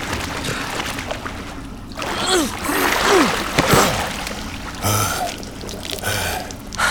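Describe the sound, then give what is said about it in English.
Splashing water as a video game character swims toward a platform: continuous churning and sloshing with a few louder surges. “I'm normal size now as I swim for the platform.”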